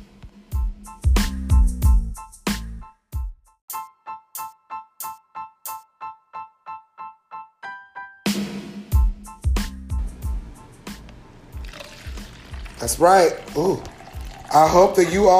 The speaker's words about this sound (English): That is the sound of us pouring our glasses